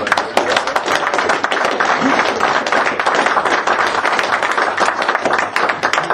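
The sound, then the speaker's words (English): Loud, sustained clapping from a large crowd at a nationalist political gathering, welcoming an organiser to the stage. Thick, continuous applause keeps a constant intensity from start to finish. “So please put your hands together and give a very warm welcome to a very good organiser”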